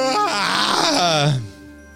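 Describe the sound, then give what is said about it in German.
A person screams in one drawn-out vocal cry lasting about a second and a half. Its pitch sinks toward the end before the sound breaks off into quiet. “Wer schreit da so? Was war das denn?”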